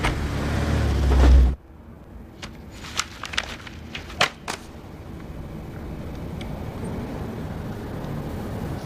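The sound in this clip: A car engine rumbles loudly and low for about a second and a half as the car drives off, then cuts out abruptly, leaving quiet ambience with a few soft clicks and footstep-like taps.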